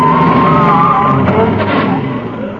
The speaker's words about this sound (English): Great Scott, the van's turning round.